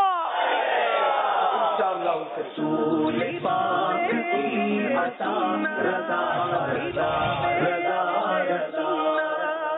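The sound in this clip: A crowd chants a religious slogan in loud unison, voices rising together in forceful, sustained phrases with brief dips between repeated calls.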